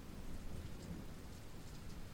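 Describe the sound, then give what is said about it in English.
Thunder from lightning in a thunderstorm rumbles low and steadily beneath a constant hiss of rain falling on surfaces, with no voices. “I just got scared for a second. That lightning really scared me.”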